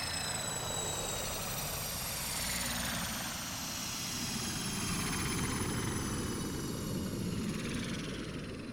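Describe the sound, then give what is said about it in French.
A flying saucer landing, heard as a loud, steady whirring roar like a rotor engine. The roar runs unbroken throughout, and a tone within it slowly rises in pitch. No voices. “Et juste le temps de boire un petit verre de rhum que, hop, la soucoupe atterrit.”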